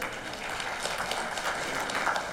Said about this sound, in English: amen, we can give a hand clap to that.